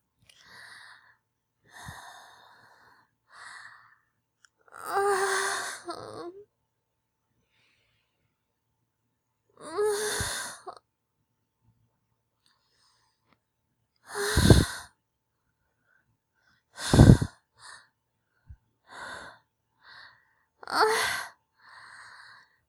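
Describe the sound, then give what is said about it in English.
Slow breaths in and out, heard as soft, drawn-out inhales and exhales spaced by quiet gaps. A few of the breaths are louder and sharper. “Just breathe in. Breathe out.”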